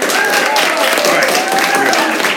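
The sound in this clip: Studio audience applause from a class of 2023 student audience: dense, steady clapping that holds at an even, loud level for the whole stretch, with some voices mixed in.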